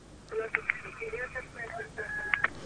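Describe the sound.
Telephone tones and beeps sound as a caller is put through on a radio call-in show. A few short bright beeps and one sustained tone cut through a faint, muffled voice.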